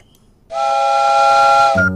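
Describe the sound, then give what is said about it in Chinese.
A train whistle blowing as the train departs: one sustained, bright, multi-toned blast lasting over a second, then a lower humming tone that takes over at the end. “本次列车马上就要出发了，没有报名上车的朋友请抓紧时间。”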